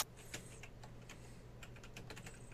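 Typing a chat message on a computer keyboard: many quick, faint key clicks in an uneven, continuous patter, with no voices.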